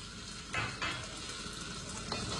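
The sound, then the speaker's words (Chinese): Chilies hit oil heated to about 80 percent and are stir-fried, giving a loud, steady sizzling hiss that surges in a few short bursts as they are tossed. “油温达到八成热后，快速加入辣椒、”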